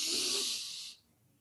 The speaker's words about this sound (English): breath in through the nose, out through the mouth. And we're going to do a few of these.